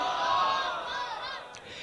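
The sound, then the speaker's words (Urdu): A rally crowd roars back in unison in response to a Takbir chant at a protest gathering. The massed shouting is sustained and loud, then thins and fades toward the end. “نعرے تکبیر۔”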